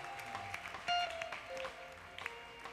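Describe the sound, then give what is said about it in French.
A church audience claps lightly and scattered, with soft keyboard tones and a faint voice underneath. “Est-ce qu'on peut acclamer le Seigneur là-bas?”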